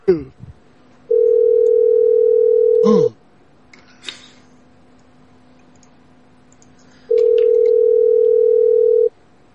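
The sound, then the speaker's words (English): Ringback tone from a telephone while calling someone back: two long, steady tones of about two seconds each, separated by a pause of roughly four seconds, with a few faint clicks in between. “Anyway, let me call him back, though, just in case.”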